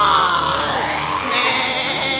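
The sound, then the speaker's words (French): Wild beasts cry out in a tropical jungle among baobab trees: a loud, dense chorus of overlapping wails and bleating howls, sustained without a break from start to finish. “Au loin, dans les baobabs, les cris des fauves résonnent.”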